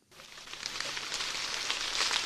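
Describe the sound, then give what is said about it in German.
Light drizzle patters on a maize field in Franconia after a dry spring, a soft, even hiss of fine drops that fades in quickly and holds steady, growing slightly louder toward the end. “Leichter Nieselregen prasselt auf den Maisacker von Thorsten Sturm aus dem fränkischen Obernzenn.”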